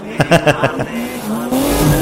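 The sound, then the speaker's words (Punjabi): A car screeches its tires and revs hard, with a few sharp bursts at first, then a steady, loud roar whose high tone climbs gradually. “ਚੀਕਾਂ ਪੂਰੀ ਨੇ ਕਢਾਉਂਦੇ rim ਮੇਰੀ ਕਾਰ ਦੇ”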